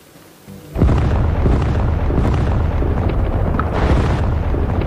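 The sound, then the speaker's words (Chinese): Dramatised artillery shelling during the 1948 assault on Jinzhou sets a defended zone ablaze: after a quiet start, a sudden blast opens into a dense, continuous, loud roar of explosions. “在猛烈炮击下，安守仁的防区被炸成一片火海”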